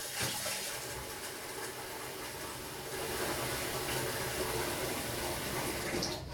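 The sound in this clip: Water runs from a tap while something is rinsed and washed away, a steady, broad hiss that holds evenly and grows a little louder partway through.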